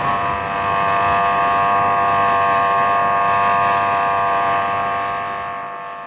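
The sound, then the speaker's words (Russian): An attention-signal buzzer sounds at an astronomical observatory with a large telescope. It gives a steady, harmonic-rich electric drone that holds evenly for about six seconds before easing off slightly at the end. “Сигнал внимания всем.”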